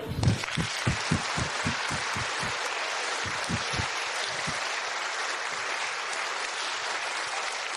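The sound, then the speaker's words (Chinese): Audience applause fills a theater after a performance at a charity event for Down syndrome: a burst of separate sharp claps at first, then dense, steady clapping that holds at an even level to the end, with no voices. “现在，让我们用最热烈的掌声来感谢他们的表演。”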